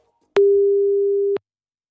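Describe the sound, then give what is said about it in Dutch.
A single steady telephone tone plays while a call is placed about a job vacancy: one clear, low-pitched beep lasting about a second, heard alone with no talk. “Eens even gaan bellen met iemand die over die vacature gaat.”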